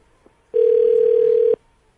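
A telephone tone sounds when a call is placed again on an iPhone. It is a single steady, mid-pitched electronic beep lasting about a second, alone and clear, with near silence before and after.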